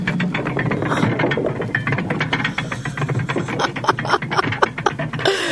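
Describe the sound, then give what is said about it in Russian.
A mill wheel turning, produced as a sound effect: a steady, loud clatter of rapid mechanical clicks and ratcheting gear noise that runs without a break and carries no voices. “Маэстро, будьте добры, мельничное колесо.”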